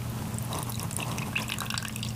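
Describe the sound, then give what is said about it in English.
Lemon juice is poured into a bowl of turmeric mixture while cooking, giving a faint, soft trickle with light drips over a low steady hum. “Lemon juice going in.”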